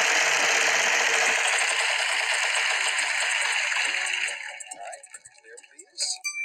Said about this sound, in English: Why don't we spin the wheel?